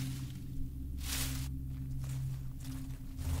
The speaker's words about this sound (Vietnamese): Tiếng bước chân của họ lê trên nền đất, dẫm vào lá khô, nghe nó cứ loạt xà loạt xoạt, loạt xà loạt xoạt.